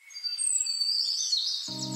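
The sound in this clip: Swallows calling in high, thin twittering chirps that flutter and slide for most of the moment. Music with low sustained notes comes in near the end.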